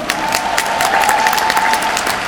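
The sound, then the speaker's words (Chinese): Loud, dense audience applause fills the whole stretch for the speakers at a company event, an even wash of many hands clapping with no voices over it. “让我们再给所有的这些讲员最热烈的掌声。”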